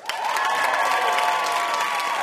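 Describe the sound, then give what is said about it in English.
A studio audience claps and cheers for VIP guest W. Kamau Bell on a trivia game show. Loud, steady applause is mixed with crowd cheering and sustains evenly after a sudden start. “Big hand for our wonderful VIP, W. Kamau Bell.”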